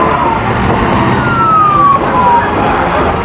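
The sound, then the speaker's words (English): Emergency vehicle sirens wail through a tangled mass of city traffic. Thin, wavering siren tones ride over a loud, dense rumble of engines. “Emergency vehicles make their way through the tangled mass of cars, and military Humvees hurry through the streets.”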